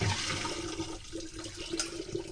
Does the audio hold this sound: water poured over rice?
yes